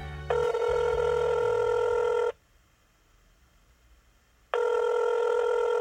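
An outgoing phone call being placed: two long electronic ringing tones, each about two seconds, separated by a quiet pause.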